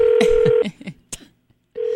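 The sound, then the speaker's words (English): A telephone call being dialed: a steady electronic line tone, then a few short clicks and blips, and the steady tone returns near the end. No voices. “We're going to talk to him. I'm going to call Dolvette”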